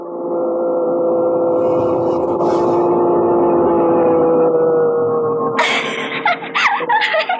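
Racing car engine at full throttle during a race: a loud, sustained droning whine held almost level throughout, turning rougher and noisier toward the end.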